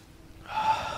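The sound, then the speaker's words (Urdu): A deep, forceful breath drawn in during a breathing exercise, heard as one sharp, hissing inhale that begins after a quiet moment, swells quickly and holds steady to the end, with no voice over it. “ایک exercise کرتے ہیں، زور سے سانس لیجئے ایک بار.”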